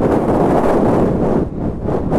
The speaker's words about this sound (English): Now what noise is that supposed to be? It's wind noise.